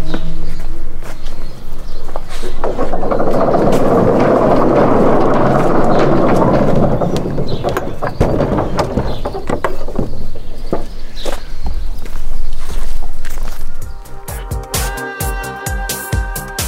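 Footsteps of two people walking back across a small road on a farm: a long, steady run of scuffing, shuffling steps under a heavy, loud rumbling noise.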